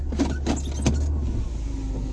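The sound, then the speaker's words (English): Steady low rumble of a car being driven, heard from inside, with a few brief clicks and bumps early on over the continuous road and engine noise. “I'm driving, that's what's going on.”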